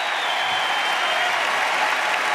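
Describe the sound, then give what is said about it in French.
Tennis spectators standing in the stands and applauding to encourage Gaël Monfils, a dense, even rush of clapping that holds steady throughout with no clear peaks. “Écoutez le public qui est en train d'encourager Gaël Monfils. Écoutez-le.”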